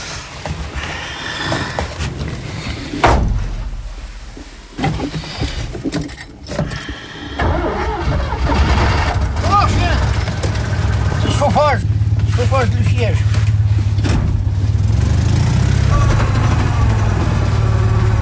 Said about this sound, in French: Ça va, elle a démarré ? Ah ben, elle était restée au soleil, en tournant la clé.